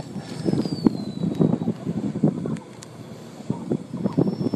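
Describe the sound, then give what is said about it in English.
Wind turbine blades spinning at the foot of a turbine on a farm in Warborough, a continuous low whooshing rumble that swells and eases under steady wind noise. “this turbine in Warborough that you can hear the blades spinning over the sound of the wind”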